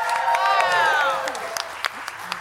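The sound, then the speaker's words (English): A game show studio audience applauds and cheers loudly. A high whooping cheer swells and then dips over dense clapping, and the applause eases slightly toward the end. “the crowd erupted like a volcano, guys”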